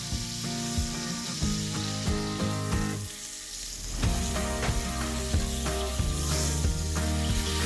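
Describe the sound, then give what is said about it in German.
Salted steaks sear in a hot pan with olive oil, giving a loud, continuous sizzle with crackling and popping spits that briefly dip before surging again. “Und das braten wir schön heiß in der Pfanne mit etwas Olivenöl an.”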